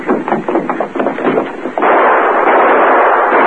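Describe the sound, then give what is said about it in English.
Gunshots fired at outlaws fleeing with cash from a robbed safe: a rapid, loud volley of sharp cracks for nearly two seconds, then a continuous rushing roar. “Who are you shooting at? Well, a couple of outlaws stole the cash from the safe.”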